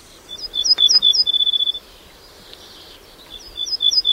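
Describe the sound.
Polish ortolan bunting song: a run of high, clear chirping notes that speeds into a rapid trill, a short pause, then a new phrase of similar high notes beginning at the end.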